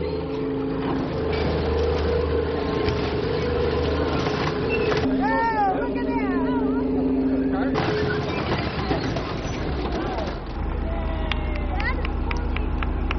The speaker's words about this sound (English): that sound you're hearing is a tank getting ready to squash a car. It's an Oldsmobile Cutlass.